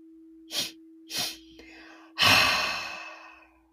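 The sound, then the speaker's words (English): Breathwork with two short, sharp inhales followed by one long, loud exhale that fades out gradually, heard alone over a faint steady hum. “That is inhale, followed by another inhale, followed by a loud exhale, letting it all go.”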